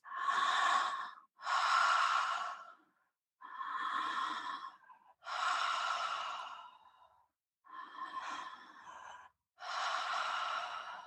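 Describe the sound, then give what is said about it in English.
Relaxed breathing through an open mouth, with six slow, airy breaths in an even rhythm. Each breath is a soft, breathy rush, like a gentle sigh, with short pauses between them. “So I do recommend your jaw is nice and relaxed, and then you're going to open your mouth and just begin to breathe.”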